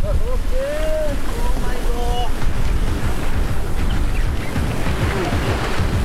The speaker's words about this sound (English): यहाँको पानीको जुन छालहरू छ त्यो बढी छ